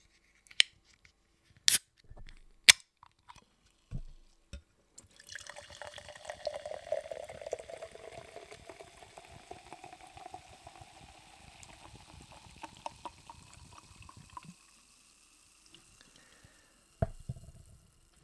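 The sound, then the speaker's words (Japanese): A 350 ml can of Suntory gin soda being opened and poured: a few sharp clicks and taps, then a long steady fizzing pour that runs for several seconds before trailing off, with a couple of soft knocks near the end. “今夜私がいただいていますのはサントリージン水ジンソーダの缶”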